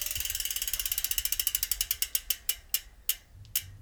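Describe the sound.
A bent, loose bicycle brake rotor rubs as the wheel coasts down, giving a long train of sharp scraping ticks, rapid at first, then spacing out steadily as the wheel slows, heard alone.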